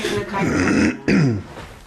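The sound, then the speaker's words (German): A person clears their throat, a habit tied to a lingering post-Covid condition. It comes as a longer voiced rasp, a brief break, then a shorter, lower burst. “wenn ich mich immer räusper, das liegt wirklich an diesem.”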